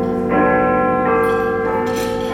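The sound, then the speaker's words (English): Big Ben's great clock bell strikes two o'clock, deep and loud, each heavy stroke ringing on into the next in a rich, sustained hum with no talk over it. “We're based in Big Ben. The canteen's right behind the big clock. I have to sit there covering my ears like I'm in Mary Poppins.”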